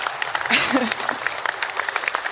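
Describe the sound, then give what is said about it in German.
Applause: a dense wash of many quick claps that stays fairly soft and even throughout, with a voice briefly audible partway through. “Ja, da kann man mal klatschen.”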